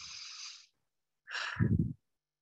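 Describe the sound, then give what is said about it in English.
A deep breath taken during a guided purification exercise: a soft, airy hiss, then a short pause and a second, fuller breathy sound with a low rumbling edge. No talking. “And then take a deep breath.”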